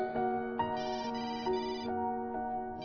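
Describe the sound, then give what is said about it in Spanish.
A mobile phone ringtone rings insistently, repeating a bright electronic melodic phrase in even cycles at steady loudness, with no other sounds. “Se sorprendió cuando su celular sonó insistentemente.”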